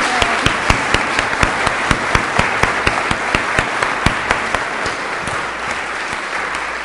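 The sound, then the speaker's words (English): Applause in a church service welcomes visiting apple pickers from Jamaica: many hands clap in a steady, lively patter with sharper accents scattered through, holding at an even level before easing slightly toward the end. “So please give them a warm welcome. Here's a welcome.”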